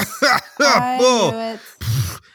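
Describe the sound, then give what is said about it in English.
A voice imitates a person lying on the ground, coughing and groaning: a few short, strained voiced groans followed by one rough, breathy cough burst near the end. “lying on the ground, coughing, is Agatha”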